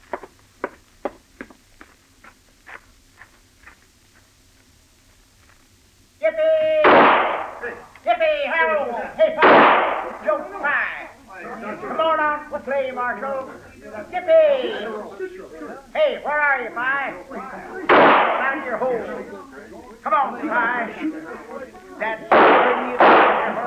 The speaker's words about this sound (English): That's enough shooting.